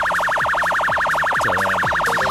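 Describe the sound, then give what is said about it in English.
A vehicle siren wails in a rapid, regular warble, its pitch swinging up and down many times. It stays loud and steady throughout. “So next time you hear that siren, you'll know it's me going past your house in the morning.”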